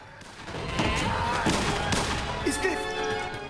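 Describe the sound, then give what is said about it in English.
Gunfire during a fight between masked guards and escaping prisoners: a few sharp shots burst out over a dense, busy background sound that stays loud throughout. “As Sinclair's masked guards run in, Jason and the others trade shots and fists with them. Jason shoots one of the guards dead and they make their escape.”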